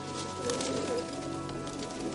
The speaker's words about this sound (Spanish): El suelo está repleto de palomas que picotean con avidez.